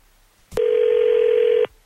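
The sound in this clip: A telephone call being placed: a brief click, then one steady, loud electronic ring tone held for about a second before cutting off abruptly.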